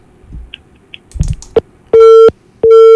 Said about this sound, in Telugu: Okay అండి, call అయితే cut అయిపోయింది.